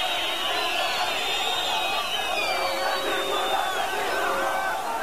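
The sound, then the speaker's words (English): Protesters in Damascus reacting to the Gaza conflict, a crowd raising shouts and chants that rise and fall over a steady bed of massed voices. “here is the sound of some protesters in Damascus”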